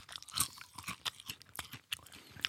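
A crunchy snack being chewed, with many quick, crisp crunches and bites in an irregular rhythm. The crunching is fairly faint, and no one speaks.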